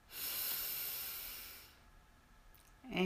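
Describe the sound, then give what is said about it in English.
A slow breath during a guided breathing exercise: a long, soft, airy hiss lasting over a second that fades away, a quiet pause, then another breath beginning at the end. “We breathe in and out. Breathe in”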